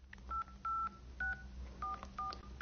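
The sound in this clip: Telephone keypad dialing tones sound as a number is entered on a phone: six short, quiet beeps at uneven intervals, each a brief two-toned chirp.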